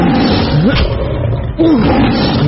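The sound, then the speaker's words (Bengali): A lion roars during a fight, giving deep, loud, harsh roars and growls with two strong tonal swells that rise and fall in pitch over a continuous rumbling snarl. “দুজনের লড়াইয়ের দাপটে পৃথিবী কেঁপে উঠল, সিংহের দাঁতে নখে ছুরির ধার, তার লেজ যেন নাগরাজ বাসুকীর ভনা।”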